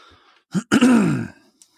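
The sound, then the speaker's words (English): Throat clearing: a short, rough burst is followed by a longer, loud voiced rasp that settles slightly lower in pitch before stopping. “Let's get all my throat clears out of the way.”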